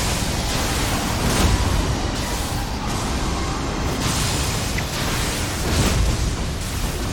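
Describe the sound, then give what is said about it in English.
Explosive backwards fire attack in a video game: a loud, roaring wall of noise that holds steady for about seven seconds and swells slightly a few times. “Jesus, uh-oh. The backwards fire. Holy shit. That's brutal backwards fire.”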